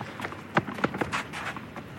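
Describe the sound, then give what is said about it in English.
Quick running footsteps of an eager ball boy on a tennis court during a match, a rapid, uneven series of light, sharp thuds over low background noise. “the footsteps of one of those very eager ball boys, the ball boys and ball girls, so quick, so efficient.”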